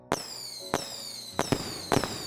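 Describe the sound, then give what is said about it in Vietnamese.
New Year fireworks go off in four sharp bursts at even intervals, each followed by a high whistling tail that slides downward in pitch. “Bà nhìn thấy từng bông pháo bay lên trên bầu trời, phát ra tiếng vi vu”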